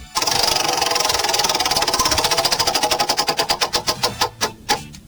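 A prize wheel is given a hard spin and clatters with rapid ticking clicks that gradually slow and spread apart, ending in a few widely spaced final ticks as it comes to rest.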